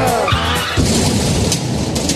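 A car drives off with squealing tires in a short, loud sound effect, the engine's growl and tire screech blending into a rough, steady rush.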